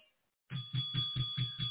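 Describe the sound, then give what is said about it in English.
A bell rings during a church worship service, giving a faint, rapid run of about six evenly spaced strokes over a sustained high ringing tone. “Do you hear that bell?”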